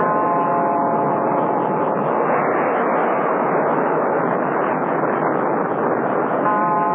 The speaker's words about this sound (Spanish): el gran proyectil pareció temblar y caer estrepitosamente. Luego, despegó lentamente de la base e inició el ascenso.